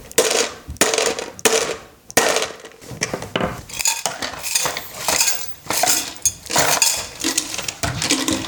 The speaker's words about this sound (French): Mon instrument, il s'appelle le rimodo. Rimodo ? Le bruit, ça fait comme ça.